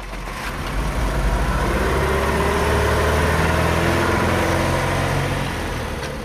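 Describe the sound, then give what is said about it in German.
Car engine as a car pulls up and stops, a steady low rumble with an idling hum that swells slightly through the middle and eases off toward the end, with no voices. “bis eben jener Henry Sand zwei Tage später in seinem Wagen vorfuhr”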